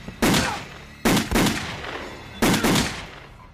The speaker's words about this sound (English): shoots from the bedroom doorway